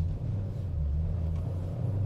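Low, steady engine rumble of a manual-transmission car slowing for a tight U-turn on a test drive. The drone stays continuous throughout, with no voices.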